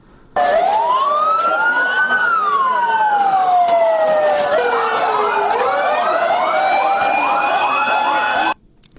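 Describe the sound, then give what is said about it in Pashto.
Loud wailing sirens from ambulances carrying the wounded after an explosion, first a slow rising and falling wail, then a quicker cycling yelp, heard alone without talk. “ده ها امبولانس زخمی ها را به شفاخانه ها انتقال دادند.”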